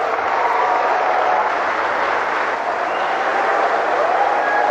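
Dense, steady applause from an audience greeting Vladimir Putin at a BRICS business forum, a continuous even roar of many hands with no speech over it.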